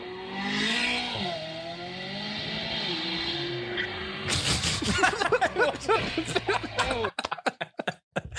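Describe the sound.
A car suddenly accelerates with a rising, roaring engine rev and a hint of tire squeal, then ends in harsh scraping and thumping as it hits the curb, with voices talking over the start.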